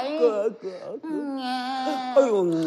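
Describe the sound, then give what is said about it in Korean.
A human voice imitates the weak, wavering crying of an exhausted newborn: whimpering wails that bend up and down in pitch, running almost continuously with brief breaks. “이제 갓난 것이 지쳐서 울음소리도 시원찮네”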